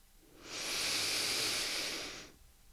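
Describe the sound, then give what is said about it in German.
A deep, deliberate breath drawn through the nose, heard as one long, even, airy hiss that swells in, holds steady for nearly two seconds and fades, with no talk over it. “Und dann nimm noch einmal einen ganz tiefen, bewussten Atemzug ein über deine Nase”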